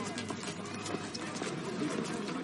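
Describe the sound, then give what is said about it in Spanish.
Horse hooves clip-clop steadily as a horse-drawn carriage comes to a stop, a continuous rhythmic clatter over a dense background. “Su carruaje se detiene. Un lacayo la ayuda a bajar.”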